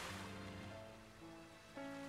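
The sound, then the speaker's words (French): Gentle lapping of sea water on a slightly milder winter morning, a faint, steady wash of soft hiss that holds at a low level throughout. “Et comme ce matin-là, il fait un peu moins froid, la mer là-bas s'est remise à clapoter.”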